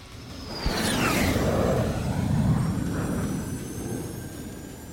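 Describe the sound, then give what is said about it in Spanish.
An aircraft taking off: a sudden onset swells into a broad roaring whoosh, with a whistling tone that falls in pitch, then the roar slowly fades. It is fairly faint and has no voices. “La nave despega en 5, 4, 3, 2, uno.”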